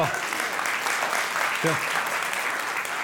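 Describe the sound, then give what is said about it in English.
An audience applauds, a steady, dense wash of clapping that runs throughout, with a brief voice rising out of it near the middle. “I hope you're applauding your team”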